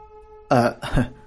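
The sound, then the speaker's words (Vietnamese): An embarrassed cough is voiced as two short, throaty bursts in quick succession, loud and alone. “rất là xấu hổ mà ho lên khù khụ một tiếng”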